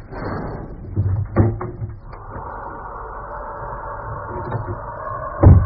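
A window being opened so someone can climb out: a few knocks and thumps, a sustained scraping, then a louder thump at the end.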